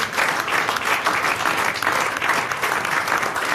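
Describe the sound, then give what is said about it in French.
A standing ovation from a game-show audience: dense, steady clapping that holds at a fairly loud, even level for the whole stretch, with no voices or pauses. “Et c'est une standing ovation. Oui, standing ovation.”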